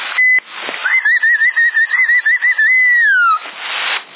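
A person whistles over a CB radio channel in Sassari: a thin, warbling trill held for a few seconds, gliding downward at the end, with bursts of radio static before and after.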